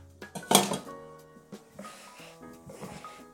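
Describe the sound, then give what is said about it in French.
A cutting board is taken out in a kitchen during apple preparation: a sharp wooden clack near the start, followed by a few softer knocks, scrapes and light rattles fading off. “Et je vais maintenant sortir une planche”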